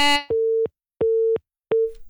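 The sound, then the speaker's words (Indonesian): A telephone busy tone sounds on a call-in line after a caller suddenly drops off. Three steady mid-pitched beeps play at even intervals with silence between them, after a brief clipped sound at the start. “Ada siapa nih di line telepon kok tiba-tiba hilang?”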